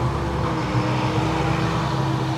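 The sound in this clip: A loud tractor pulling a large tank trailer drives past, giving a steady, heavy engine drone with a strong low hum that stays constant and loud throughout, with no voices.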